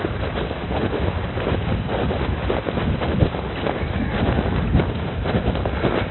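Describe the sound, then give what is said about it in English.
Stiff wind blowing across a microphone outdoors: a continuous, loud, low rumbling roar with uneven gusty swells, steady for the whole clip and with no voices. “Whew, that is a stiff little wind.”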